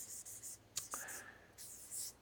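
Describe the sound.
Writing: soft, scratchy strokes come in short repeated bursts, with a brief vocal sound partway through.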